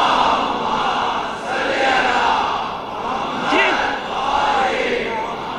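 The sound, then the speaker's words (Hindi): A crowd loudly recites salawat, blessings on Muhammad and his family, in unison at a religious gathering. The massed voices swell and fade in repeated waves of chanting. “नहीं ऐसे नहीं, ऐसे नहीं, जरा एक बुलंद आवाज से सलवात भेजिए, मुझे पता चलेगा आप यहां बैठे हैं।”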